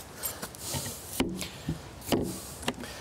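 A house door is shut in the evening after the dogs have gone inside. A few sharp knocks and thuds stand out against a soft rustling background.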